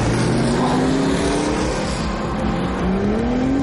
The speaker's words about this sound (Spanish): Todos los pilotos revolucionan sus motores.